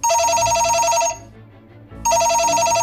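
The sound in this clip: A telephone bell rings in two loud, steady-pitched electronic bursts separated by a brief pause, with no voices over it.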